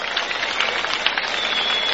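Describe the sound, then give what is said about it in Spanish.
A brief burst of applause, a dense and even patter of many hands clapping that lasts about two seconds. “Aplauso, aplauso.”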